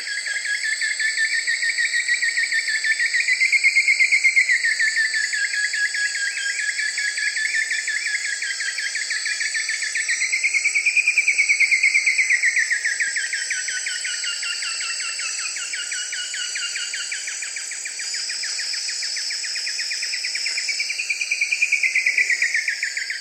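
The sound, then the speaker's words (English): An Elegant Woodcreeper's calls come as a few wavering, rising-and-falling phrases riding over a loud, continuous chorus of insect trilling. “Elegant Wood Creeper.”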